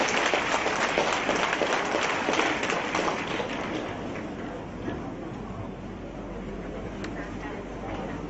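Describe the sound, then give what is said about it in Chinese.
Audience applause at a Buddhist gathering's flower-presentation ceremony: dense, continuous clapping that fills the whole stretch and eases off slightly toward the end. “让我们用最热烈的掌声”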